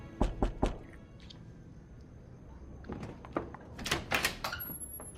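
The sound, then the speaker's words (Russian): Knocking on a door in a film scene: three quick, sharp raps at the start, then a quieter stretch and a further cluster of louder thuds and clatter near the end. “Они начинают целоваться, но в дверь стучит кто-то.”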